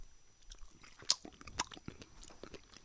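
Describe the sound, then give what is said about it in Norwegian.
Biting and chewing on small, overgrown wild strawberries: a few faint, crisp crunches stand out among soft, moist chewing noises, with no talking. “Ja, de er rett og slett forvokste markjordbær. Men, men forminska sånne vanlige jordbær. Altså, de er ganske små. Ok, Skal vi smake? Vi får prøve.”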